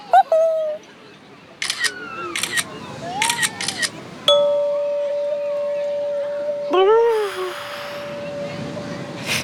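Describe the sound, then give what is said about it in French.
A camera takes a photo on a beach with a single sharp click followed by a lingering steady tone, among brief squeaky, chirping vocal sounds. “Ne bouge pas, Toudou. Je vais te prendre en photo.”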